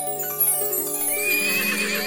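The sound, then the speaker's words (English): A horse neighs in one loud, drawn-out whinny with bright, shifting harmonics, heard alone. “there stood the finest horse she had ever seen.”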